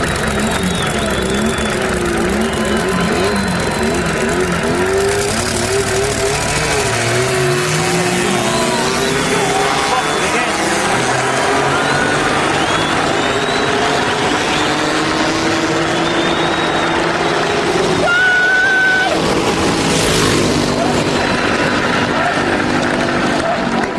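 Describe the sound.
Race car launching off the start line with the clutch cut: a loud engine roar with its pitch sweeping upward as it accelerates, then a sustained high drone, with commentators talking over it.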